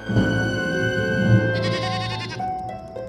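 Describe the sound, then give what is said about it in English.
A lamb bleats in the dark near a cave with one long, wavering, nasal cry lasting about three seconds that shifts tone partway through. “That's one of our lambs. It must have strayed.”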